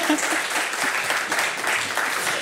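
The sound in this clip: Audience applause at a live music show: dense, steady clapping that keeps going without a pause for the whole stretch.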